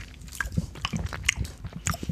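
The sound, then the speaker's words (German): Biting and chewing of a sour Center Shock candy: irregular crisp crunches and wet smacking mouth sounds that come in uneven bursts, fairly loud, with no talking. “Okay, und ich esse hier mein Center Shock.”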